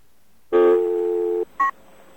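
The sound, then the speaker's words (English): Tones from a telephone voice-dialing system: a steady, buzzy tone lasting close to a second, then a brief pause and one short, higher electronic beep, both clear against a quiet background. “so let's call up now. Let's use this voice dialing.”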